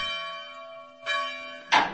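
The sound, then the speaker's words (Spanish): An old church bell at a large school for novices and students, tolling in measured strokes: three rich metallic strikes, each leaving a long, humming ring of layered tones, loud and without voices. “Todos se rigen por el toque acompasado de una vieja parlera, como llaman a la campana de San Luis.”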